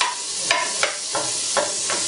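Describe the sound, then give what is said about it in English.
Capers sizzle in a frying pan as they are stirred toward browning, a steady, bright frying hiss broken by about five short scraping strokes of the stirring utensil. “you can just buy olives and use olives instead, though the original recipe calls for capers. Alright, so you stir these now. We want to get some caramelization on this. Nice brown color.”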